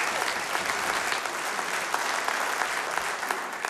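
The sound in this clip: An audience applauding a band at a live show: steady, dense clapping that holds at an even level throughout.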